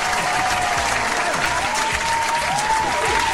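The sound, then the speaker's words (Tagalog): A crowd applauds with loud, dense, continuous clapping that holds steady from start to finish. “Palakpakan naman dyan, di ba?”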